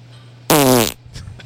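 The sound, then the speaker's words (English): A single loud fart, a buzzy, tonal blast lasting under half a second that bursts out of quiet and cuts off abruptly, followed by a few faint low noises. “farts are just exclamations now.”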